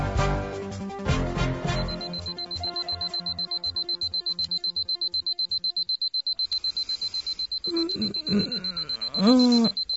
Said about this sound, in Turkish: çalar saatmiş